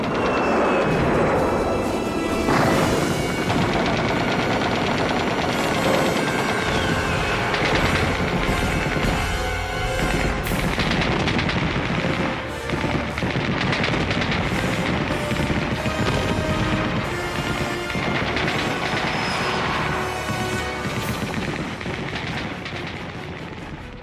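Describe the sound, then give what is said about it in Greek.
Machine-gun bursts and artillery fire in a battle, a dense, unbroken roar of rapid cracks and heavy booms that stays loud for the whole stretch, with no voices. “Καθώς προχώρησε για να αποδεχθεί την παράδοση, τον πέτυχε μια ρηπή πολυβόλου.”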